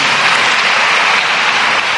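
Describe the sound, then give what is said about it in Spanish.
A church audience bursts into loud, sustained applause, a dense, even roar of many hands clapping together without pause. “Dile un aplauso al don de Dios.”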